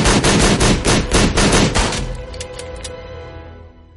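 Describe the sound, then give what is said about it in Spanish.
Gunfire aimed at the doors of a small white cupboard in a hallway: a rapid burst of many loud, sharp shots for about two seconds, then a fading, ringing tail. “rastro de sangre llega a un pequeño armario blanco que hay en un pasillo y dispara en las puertas.”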